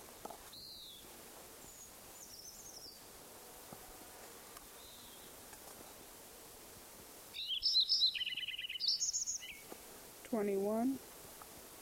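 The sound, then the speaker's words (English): A Lincoln's sparrow sings in a farm meadow: one faint, bubbly burst of jumbled high trills and warbled notes, with a few soft isolated chirps earlier. “Lincoln Sparrow number one at Metcalf Farm Meadow continued.”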